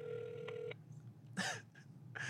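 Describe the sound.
A telephone ringing tone plays over a speakerphone: one steady, moderately loud tone lasting under a second, followed by quiet and then a few brief, faint voice sounds.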